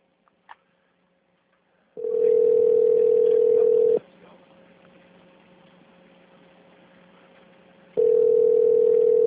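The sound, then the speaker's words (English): Telephone line tone: after a small click, a steady mid-pitched tone sounds for about two seconds, stops for a longer quiet gap, then returns and holds to the end. “Well, you should call Verone then. I will.”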